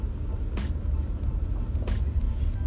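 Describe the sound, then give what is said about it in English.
A car driving along a road late at night, a steady low engine and road rumble that stays even throughout, with a few brief, higher whooshing bursts. “Alright, I'm going to go and drive past this...”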